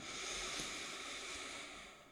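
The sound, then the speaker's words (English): A deep breath drawn in during a guided group breathing exercise: a steady, breathy rush of air lasting about two seconds, fairly loud and alone, easing off slightly at the end. “let's go ahead and take a deep breath, all of us together.”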